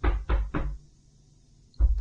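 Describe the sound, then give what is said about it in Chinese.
Knocking on a door: three firm, low thuds in quick succession, a pause of about a second, then two more knocks. “有人在敲门呢，会被发现的。”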